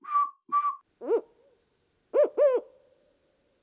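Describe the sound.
A human voice imitates owl hoots, a smaller owl such as a screech owl and another owl, as a few short, clear hooting calls: a higher, steadier pair, then lower, rounder hoots after a pause.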